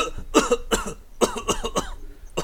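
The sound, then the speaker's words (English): A smoker deliberately coughs several times in a row. The coughs are rough, rasping bursts of uneven spacing and strength, with no other sound between them. “I can't do Tricky's voice, but I can do a cough.”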